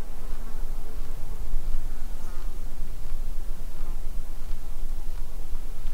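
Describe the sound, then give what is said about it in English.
Buzzing of insects flying past microphones on a quiet, windless mountain summit: a steady, continuous, low-level drone with no distinct individual passes, spread evenly across the whole stretch. “Things like insects will oblige and fly by your mics.”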